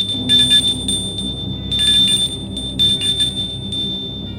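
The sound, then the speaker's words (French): An intercom buzzer rings as a high, thin electronic tone that sounds in a few pulsed bursts over a low background hum, steady in pitch and moderately loud. “On sonne à l'interphone.”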